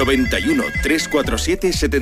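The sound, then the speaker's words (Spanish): A telephone ringtone sounds as a radio call-in line is opened, playing a loud, warbling melodic pattern that repeats steadily for about two seconds. “Venga, activamos teléfono.”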